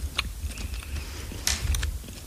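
Crisp crunches of biting into an apple during an ASMR tasting: a few short, wet crackling bursts with no talk.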